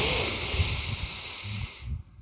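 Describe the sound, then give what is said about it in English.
Deep breath drawn in through the nose, a steady airy hiss that lasts nearly two seconds before cutting off into quiet. “Take a breath in through your nose”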